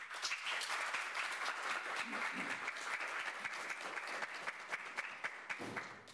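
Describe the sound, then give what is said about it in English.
An audience at a legal-profession gathering applauds warmly to welcome a speaker. Fairly quiet, dense and sustained clapping holds steady, then tapers off at the end. “Please put your hands together to warmly welcome Lord Richards.”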